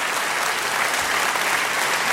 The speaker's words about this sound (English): I do like the clap in the afternoon, I really do.